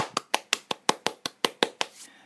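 Ten crisp hand claps land at a slow, even pace, each one sharp and clear against a quiet background, followed by a faint softer sound at the end.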